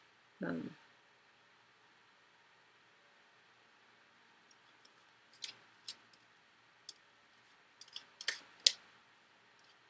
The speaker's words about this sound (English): The card flipped right up.